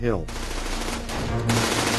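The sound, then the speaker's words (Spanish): Gunfire from German soldiers shooting from stone towers on the east side of a bridge during a World War II battle on the Rhine, a sustained, dense burst of rapid fire with a sharp surge in intensity near the end. “Los alemanes disparan desde las torres de piedra del lado este, lo que también mantiene inmóviles a los hombres de Timerman.”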